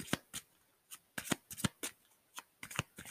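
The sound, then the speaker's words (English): Playing cards are shuffled and drawn in a quiet string of many short, crisp riffling and snapping bursts at an uneven rhythm, with no talk. “I'm gonna go ahead and pull one more card here.”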